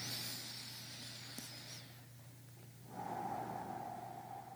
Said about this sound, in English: Take a deep breath.